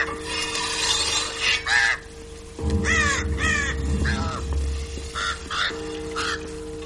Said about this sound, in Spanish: El verdugo afila su hacha en el patio que hay a la entrada del castillo. Los cuervos se posan junto a él.